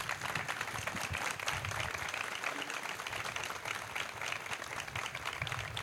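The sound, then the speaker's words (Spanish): Audience applause at a memorial ceremony, honoring a guest: a fairly quiet but dense, continuous patter of many hands clapping that holds steady for about six seconds. “Para quien pedimos un aplauso.”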